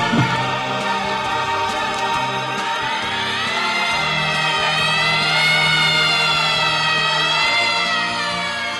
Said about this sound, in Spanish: Fu interrotto da una sirena che correva lontano chissà dove. Io ebbi paura perché sempre, quando sento questo suono, penso a qualcosa di grave.